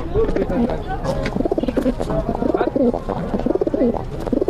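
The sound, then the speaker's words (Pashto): Pigeons cooing in a pigeon loft: repeated low, throaty, rolling coos in rhythmic bursts, with a person talking over them. “دا کوتر خانه ده. دا کوتر چې وسته د غمبر وهي کنه؟ و وهي ولا نه وهي.”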